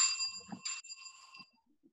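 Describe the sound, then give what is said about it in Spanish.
A bell rung as a time signal for speakers' presentations gives a bright metallic ring with clear overtones that fades away within about a second and a half, heard alone. “estaremos utilizando un timbre para ayudarlos a medir su tiempo. Y vamos a marcar un sonido cuando estén cerca a terminar sus presentaciones. El sonido sonará algo así.”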